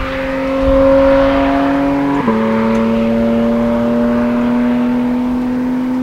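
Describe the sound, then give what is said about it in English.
Engine and intake sound from inside a moving Porsche Cayman, with the intake just behind the seats. A steady humming drone dips suddenly in pitch partway through, then slowly climbs again. “The driving experience with the sound and the intake right here behind your head. This is peak Cayman.”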